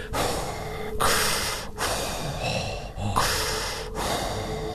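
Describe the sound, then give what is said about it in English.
A voice imitates a captain in a spacesuit panting for breath. Heavy, rasping breaths alternate in and out in a steady rhythm, loud and noisy throughout. “it shows the captain in his spacesuit. And he's breathless and panting, and he's like,”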